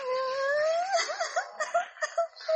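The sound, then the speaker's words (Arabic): A little girl, soaked from winter rain, cries loudly on her own: a long wavering wail that breaks into a run of short, choppy sobs. “انا سامع صوت حد بيعيط. الصوت جاي من الركن اللي هناك ده. دي طفلة صغيرة.”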